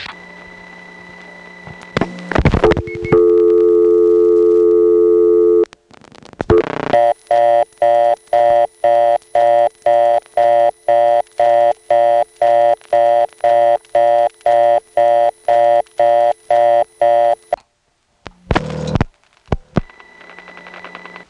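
Electromechanical telephone exchange tones follow dialing the digit 5 on a first selector wired to block. Two steady tones with clicks lead into a long run of many rapid, evenly pulsed beeps, which end in clacking switch noises.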